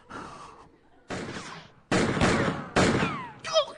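A few gunshots sound in a comedic skit. Each hits with a sharp crack and then a noisy decay that trails off before the next shot.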